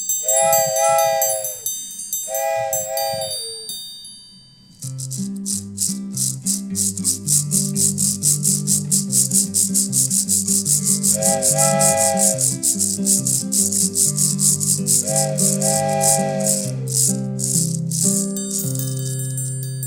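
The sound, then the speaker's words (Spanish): A children's pretend train arriving at a station: two long, tuneful whistle blasts, a pause, then steady rhythmic clattering of wheels with two more whistle toots over it. “Prepararse, pasajeros, que está llegando el tren a la estación.”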